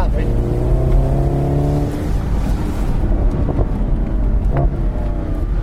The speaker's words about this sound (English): Makes a lovely sound. Sorry, I'm not very smooth. Oh, the pops on the overrun.